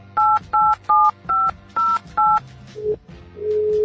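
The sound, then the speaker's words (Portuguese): Touch-tone keypad beeps as a Skype call is dialed: six evenly spaced two-note tones pulse out in a steady rhythm, then a lower steady tone starts up and holds to the end. “A Tarsila Garcia, vamos ligar para ela aqui, atenção, ligar através do Skype mesmo para poder gravar.”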